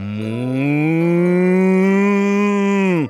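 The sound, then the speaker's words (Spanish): A bull moos in one long, loud, low call of about three seconds, rising slightly at the start, holding a steady pitch, then dropping sharply as it cuts off, with no other sounds. “Cuando el mosquito descansó, dijo al toro: ¿Le importa que me vaya ahora, señor toro? El toro respondió sin pestañear:”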